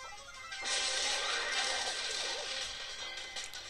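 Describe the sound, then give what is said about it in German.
A box being smashed in a video game: a sudden crash bursts in and continues as a dense, crackling, noisy rush that fades gradually over a few seconds, with no voices. “Ich mache jetzt so die Box kaputt.”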